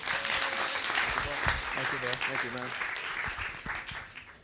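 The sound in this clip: A church audience at Every Nation Hong Kong applauds warmly to welcome a guest speaker. The dense clapping is sustained throughout with voices over it, then eases off toward the end.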